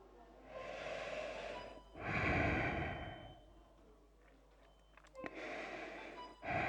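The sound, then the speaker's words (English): Breathing inside a protective suit with a visor: a few slow, drawn-out breaths, each swelling and fading as air moves in and out. The breaths are faint and hollow, with no talk. “All I hear is my breath, feel my breath on my face.”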